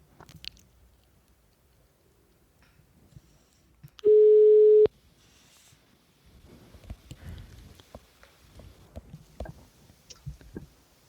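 A telephone tone sounds while a call is being placed: a single loud, steady mid-pitched beep lasting under a second. Faint rustling and clicking noises come before and after it.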